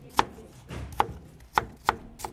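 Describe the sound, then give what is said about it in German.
Knife chops on a cutting board in a soup kitchen's kitchen in Bremen's Neustadt: five sharp, unevenly spaced thuds, the last one softer, over quiet background noise. “Die Suppenküche, die hat jetzt einen neuen Standort in der Bremer Neustadt und da wird ordentlich geschnibbelt und gehackt.”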